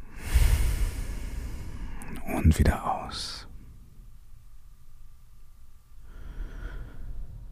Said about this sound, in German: Und nun nimmst du drei tiefe Atemzüge.